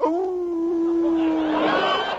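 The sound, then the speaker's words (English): A dog howls in one long, sustained, steady-pitched wail that stays fairly loud throughout and grows rougher and noisier near the end. “Now, what in the devil are you howling about, Lionel?”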